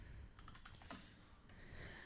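Typing on a computer keyboard to enter a search: a quick run of several light key clicks, then a pause, all quiet against a steady background hiss.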